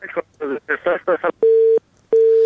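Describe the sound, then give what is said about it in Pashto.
Telephone tones from pressing a phone's keys: two long, steady, mid-pitched beeps separated by a short gap, coming right after a brief stretch of a person talking. “د تلیفون په سویچو باندې ګوتې مو وهنو، دا ټونګ ټونګې مونږ ته راځي”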